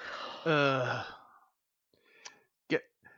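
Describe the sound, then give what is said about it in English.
A person lets out a short, voiced groan lasting about half a second, then a few faint clicks and breathy sounds after a brief silence. “The groan was actually more me having a flashback to when I was playing Pathfinder”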